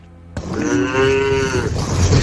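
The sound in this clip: A cow lets out one long, loud moo that starts abruptly and holds a steady pitch, then trails into lower rumbling.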